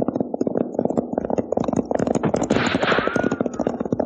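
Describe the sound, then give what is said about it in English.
Many sharp gunshots crack in quick, uneven bursts during a gun battle in a frontier western, overlapping in a dense, busy volley throughout. “There are some shots, the kind I was talking about. Now get your knee unhooked from that saddle horn and let's start making tracks. Sounds like a regular gun battle.”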